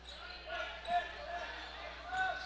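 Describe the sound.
A basketball being dribbled on a court during a game, a couple of soft, faint bounces over a steady background murmur.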